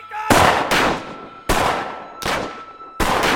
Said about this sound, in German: Da draußen wird geschossen.